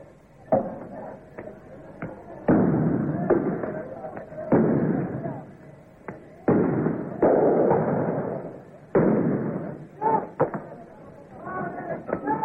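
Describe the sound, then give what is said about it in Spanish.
Tear gas launcher shots and gunfire in a street riot between students and police, heard as many sharp, booming thumps at irregular intervals over a constant rumble, with people talking throughout. “mientras las bombas de gases lacrimógenos comienzan a afectarnos. Se escuchan también algunos disparos de armas de fuego.”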